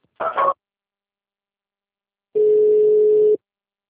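A telephone tone plays while a customer-service call is transferred. A brief burst of sound comes first, then silence, then one steady, even tone held for about a second before it cuts off.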